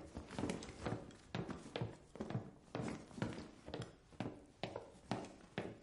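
Footsteps of a man going down a staircase while carrying a young girl and a suitcase, with many regular, fairly loud thudding steps in a steady rhythm and no other sounds.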